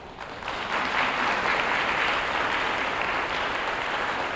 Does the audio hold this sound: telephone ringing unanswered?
no